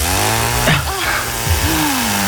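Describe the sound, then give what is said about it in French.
A chainsaw runs throughout in a comic childbirth sketch, a steady low drone with voices crying out over it. “Un à la tronçonneuse, les gars.”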